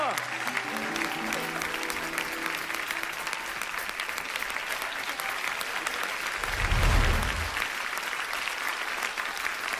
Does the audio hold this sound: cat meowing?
no